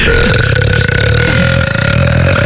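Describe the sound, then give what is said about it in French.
A loud, drawn-out burp, one continuous rasping belch with a steady throaty tone that lasts about two and a half seconds, heard alone. “T'as roté toute la nuit.”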